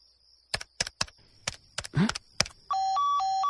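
A telephone being dialed. A few sharp button clicks sound at uneven intervals, then a steady, repeating two-pitch electronic tone from the line follows.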